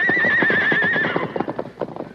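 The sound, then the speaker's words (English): Freshly unhitched horses are sent off: one whinnies in a long, quavering call for about a second over quick, uneven clip-clopping hooves, and the hoofbeats carry on alone after the neigh fades. “Meanwhile, Dirk finished unhitching the horses. Get going. You two get along there.”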